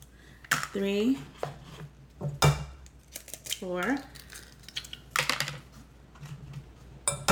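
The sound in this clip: Whole eggs cracked one after another into a bowl: crisp shell taps and cracks with soft wet drops, in a loose irregular rhythm, with talking in between.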